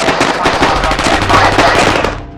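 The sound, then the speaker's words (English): Gunfire from a video game as a man is shot beside a police car: dense, loud, rapid-fire bursts that rattle on continuously throughout. “Inside, the boy stares at the video game where a man is shot beside a cop car.”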